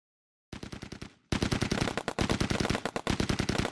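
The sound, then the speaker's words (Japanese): Distant automatic gunfire cracks out in a sudden volley. A short burst of rapid shots comes first, then after a brief gap a longer, denser stream of shots follows. “その中で遠くから新たな銃撃音が響いてきた。”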